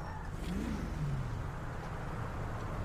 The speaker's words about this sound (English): What kind of vehicle is it? Oh, he says... Oh, okay, it's a truck with a trailer.